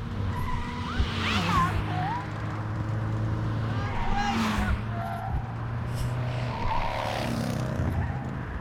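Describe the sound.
Tires skidding in a driving video game, three squealing skids rising above a steady engine drone at fairly even intervals.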